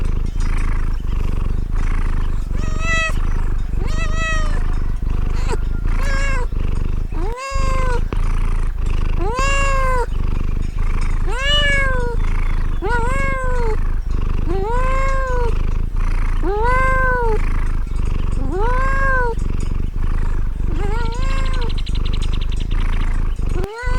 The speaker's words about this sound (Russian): Кошка. Кошка.